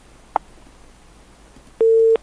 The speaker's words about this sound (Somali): waa tahay dhegeystahaasi intuunan usii gudgelin barnaamijka ayuu qadkii ka go-ay